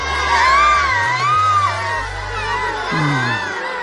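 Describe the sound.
A crowd cheers and whoops in an audio drama adaptation of an animated film, a loud, dense mass of overlapping raised voices that holds steady for about four seconds, with a lower shouting voice rising near the end.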